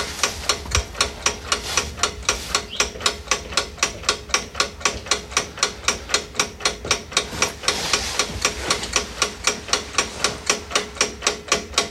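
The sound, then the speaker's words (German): Rapid, regular mechanical clacking from a 1949 Xerox Model D dry photocopier at work, with many sharp, evenly spaced strikes repeating steadily throughout over a low rumbling hum. “1949 kam mit dem Xerox Modell D der erste Trockenkopierer auf den Markt. Und dieses Gerät hört sich so an.”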